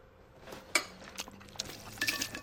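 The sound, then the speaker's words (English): Chewed food spilling from a mouth back into a bowl: soft, wet, sloppy spatters and drips, with one brighter click against the dish among a few smaller splashes. “He lets the food all flow out of his mouth back into the bowl.”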